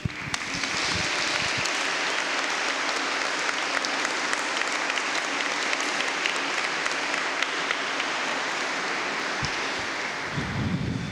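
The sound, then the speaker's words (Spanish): Congregation applauding at a church service after a homily, sustained dense clapping from many hands that starts quickly and holds steady for about ten seconds before easing off. “Un aplauso para ustedes que trabajan mucho.”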